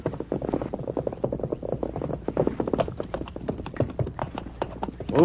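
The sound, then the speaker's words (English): A horse gallops, its hooves making a rapid, steady run of many clip-clop beats. The beats are fairly faint and evenly paced throughout. “Listen. Someone's coming at a gallop beyond the bend.”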